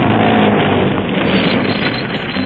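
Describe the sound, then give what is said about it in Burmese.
Engine rumble of an approaching car blended with gusty wind noise, a continuous, fairly loud low drone that holds steady throughout, with no voices. “ကားတစ်စီးတော့လာနေပြီ”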